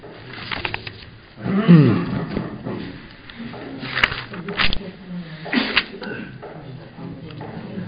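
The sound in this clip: A single abrupt sneeze breaks through voices talking in a group lesson on counting Quran verses.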